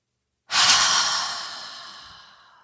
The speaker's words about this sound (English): As you inhale, let your shoulders lift up. Feel the muscles contract here. And exhale through an open mouth and lower.